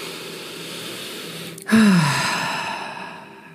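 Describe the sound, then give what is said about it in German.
A deep breath drawn in and released through the mouth during a guided meditation: a soft airy intake, then a sudden, fuller sighing exhale that slowly trails away. “atme einmal tief ein und über den Mund wieder aus”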